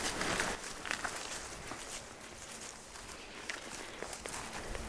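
Footsteps move through a forest during a deer hunt in Kustavi, Finland: a quiet, steady run of soft, irregular crunching and rustling steps over the forest floor, with no talking.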